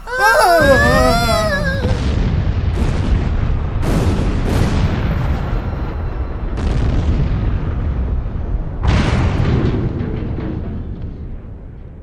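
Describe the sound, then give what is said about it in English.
Explosion effects for a sun blowing apart: warbling electronic tones open the sequence, then a run of heavy booming bursts, each decaying into a low rumble, with a loud final blast near the end. “Look at the sun! What's happening to it? I'm not sure. It almost looks like it's exploding!”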